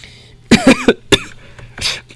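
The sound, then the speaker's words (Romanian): Coughing from someone choking on a swallow: a few harsh, rasping coughs in quick succession, then a softer, breathy cough, loud and with no speech. “Pardon, m-am înecat.”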